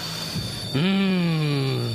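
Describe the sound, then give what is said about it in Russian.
A London Underground train on the Northern line: a steady low rumble, then at about three-quarters of a second a loud tonal whine cuts in and holds, its pitch sliding gently downward as the sound stays strong to the end. “Маэстро, переместите нас в лондонское метро, пожалуйста.”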